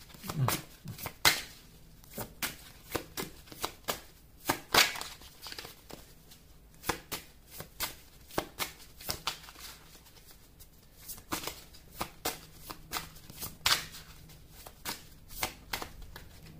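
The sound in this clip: Playing cards being shuffled and dealt: many crisp riffling clicks and sharp snaps in irregular bursts, fairly faint, with short pauses between handfuls.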